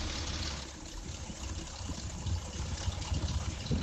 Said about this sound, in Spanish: Pues vamos a escuchar cómo suena el motor del 600, uno de los dos además que habéis traído, porque han venido los dos a bordo de cada uno sus 600. Así suena el motor.